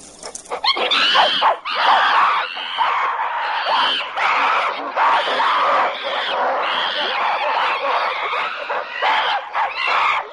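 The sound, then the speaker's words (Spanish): Apes shriek at a watering hole as a rival group lurks nearby: loud, harsh, overlapping screams and cries pour out almost without pause for about ten seconds, with only brief dips between bursts. “La familia de simios está tranquilamente alrededor de la charca, mientras otra familia les acecha tras unas rocas. Los que estaban bebiendo se dan cuenta de la amenaza y comienzan a chillar.”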